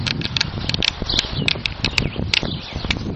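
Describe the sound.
Footsteps of a person walking while checking their speed on a GPS device, a long run of steady, evenly spaced steps with crisp, patter-like impacts throughout.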